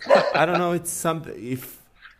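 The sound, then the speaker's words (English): A pet dog barking in a few short, tonal bursts that rise and fall in pitch, some close to a yip, with brief pauses between them. “I think my dog is just telling me it's time to finish this”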